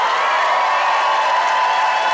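Audience cheering and applause as a crowd votes for the winner of a comedy debate: a sustained, even wash of crowd noise that stays loud from start to finish.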